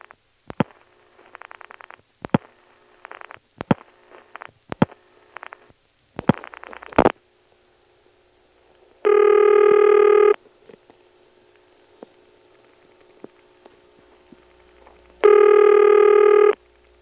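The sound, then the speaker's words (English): A telephone line rings after dialing: a run of clicks and short buzzy bursts from the dialing and switching, then a quiet gap, then two long buzzing ring tones about six seconds apart. “it's a little hard to separate that out from the clicks the switch makes when it starts to ring, but this is what we've got.”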